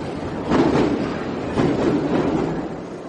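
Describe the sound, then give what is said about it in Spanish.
A Mexico City metro train runs with a steady rumble and clickety-clack of wheels on rails, swelling in two rhythmic surges, with no voices. “Próximo arribo a la estación Etiopía. El metro, la solución a millones de movimientos persona.”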